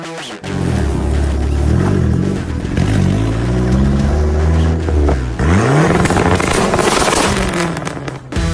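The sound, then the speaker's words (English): Turbocharged Dodge Neon SRT4 engine making over 400 wheel horsepower, revving loudly with repeated swells that climb and ease in pitch, including a sharp climb after a brief dip midway, with no talk. “that is Bailey and his big turbo Dodge Neon SRT4 making over 400 to the wheel. How cool is that?”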